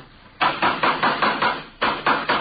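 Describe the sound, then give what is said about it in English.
A hammer strikes wood while a coaster cart is being built, landing as a quick, even run of sharp, loud blows, then a short pause, then a few more blows. “would you hand me that hammer there, officer?”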